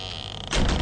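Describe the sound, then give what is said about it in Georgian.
A house door being shut and bolted: a brief, thin scraping sound gives way halfway through to a louder, broad clunk and rattle that carries to the end. “სახლის კარი საგულდაგულოდ გადარაზა”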